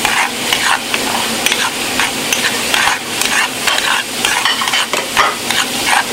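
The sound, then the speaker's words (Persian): Onions frying in a pan are stirred under noisy conditions: a steady, loud sizzle runs throughout, broken by many quick scraping strokes of the utensil against the pan. “صدای سرخ کردن یا آشپزی در شرایط سخت دیگه باید ببینیم چی میشه. هم میزنم پیاز رو”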